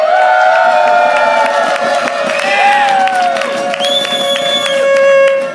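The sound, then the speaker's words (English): A small live audience of about ten people cheering at the TechDays conference in Vancouver, with sustained loud whoops and shouts that stay strong throughout. “Wow, you never knew 10 people would sound that big. We're at TechDays in Vancouver.”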